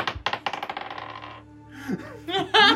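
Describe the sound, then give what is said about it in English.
Dice rolled during a tabletop role-playing game clatter in many quick, bright bounces that speed up and fade, followed by faint voices. “Let me use Spencer's dice.”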